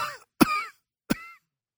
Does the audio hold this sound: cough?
yes